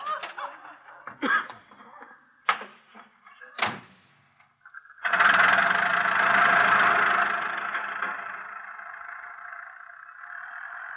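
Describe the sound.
Car engine running during a drive, a steady, broad rumble that sets in after a few short knocks and thumps and carries on to the end, easing slightly toward the close.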